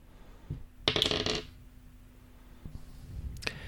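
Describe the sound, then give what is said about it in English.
A coin is flipped: a soft flick, then a bright metallic ringing clink as it lands, followed by a few faint taps. “Could you flip that coin for me? Sure can. Hold on.”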